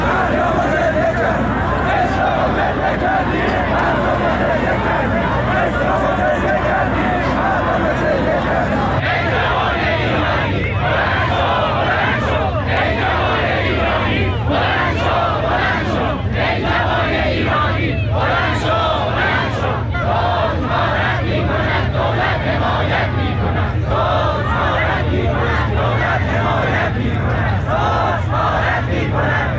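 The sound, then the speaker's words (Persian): A large crowd at a Thursday street protest chants political slogans in unison, loud rhythmic shouting that continues throughout, with the sound of the crowd thickening after the first several seconds. “در تجمعات روز پنجشنبه شعارهای مختلفی سرداده شد”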